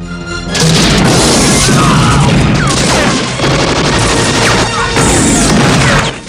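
An explosion as a grenade hits a jeep, with gunfire: loud, dense booms, crashing and rapid bursts of shots that run almost without pause throughout.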